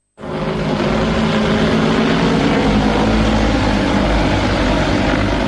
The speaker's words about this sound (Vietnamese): Tiếng động cơ cất cánh của một thiết bị bay không người lái vang lên tại khu vực Cần Giờ, thành phố Hồ Chí Minh.